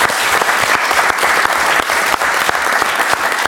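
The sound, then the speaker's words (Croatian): Loud, dense applause from members of a government, honouring the national football team, fills the whole stretch as continuous steady clapping with sharp individual claps poking through. “ja mislim da reprezentacija zaslužuje jedan aplauz cijele vlade.”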